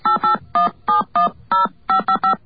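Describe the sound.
Touch-tone telephone dialing as a call is routed through AT&T: a rapid series of many short, evenly loud dual-tone beeps, each clipped and separated by tiny gaps, with no talk.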